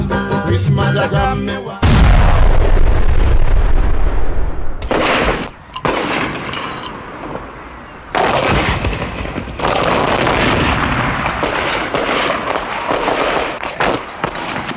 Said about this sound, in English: The battle was in full force, artillery fire coming from both sides